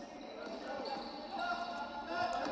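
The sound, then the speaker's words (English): Basketball dribbling on a court: repeated ball bounces under a steady wash of crowd noise, the thumps soft and partly buried, with the overall din swelling slightly toward the end. “Gonna dribble up the cut and just for no real reason, shoot from three there without any of his teammates down there to rebound.”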